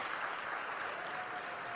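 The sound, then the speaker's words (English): Audience applause, a faint, even patter of many hands clapping together, holding steady at a low level throughout without voices. “It deserves applause for sure.”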